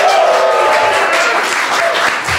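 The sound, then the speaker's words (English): Dense applause and crowd noise from a live audience at Mozilla's Glass Room in San Francisco, loud and steady for the whole clip. “We're live at Mozilla's Glassroom in San Francisco. We've got a crowd. The crowd is here.”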